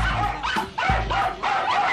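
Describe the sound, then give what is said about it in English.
Dogs barking: several overlapping bursts of loud barks and sharp yips, with a short break between groups, keeping up for the whole stretch. “I think we have to put the dogs back in the kennel because you opened the door that said, do not let the dogs out.”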